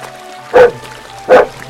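A dog barks twice, two loud, separate barks spaced under a second apart over a faint background hum.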